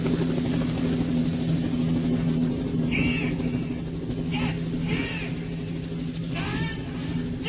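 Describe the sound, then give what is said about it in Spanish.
A flying helicopter gives a steady, fairly faint low droning hum with sustained tonal lines throughout, and a few brief higher sounds break in over it. “Helicóptero.”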